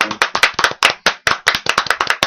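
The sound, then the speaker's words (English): An audience applauds a poem read aloud at a live reading, with loud, sharp hand claps arriving in a quick, uneven rhythm throughout. “No, let's applaud that first poem first.”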